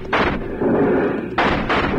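Gunfire in a western radio drama shootout, several loud, booming shots in close succession, each with a heavy echoing tail that blurs into the next.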